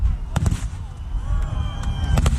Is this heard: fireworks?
yes